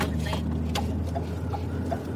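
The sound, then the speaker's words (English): Low, steady rumble of a car driving along a secluded one-lane gravel road, with a few faint ticks and rattles over the drone. “It's secluded out here as we drive along the one-lane gravel road that leads to a dead end and the Houck farm.”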